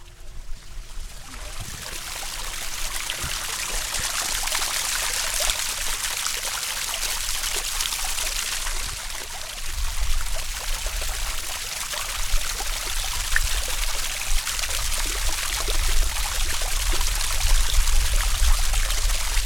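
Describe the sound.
Water flows steadily through a Mountain Fountain, a teaching model of the mountains around Los Angeles that shows water being filtered and sent to an aquifer. A continuous trickling, splashing wash runs throughout with no talk.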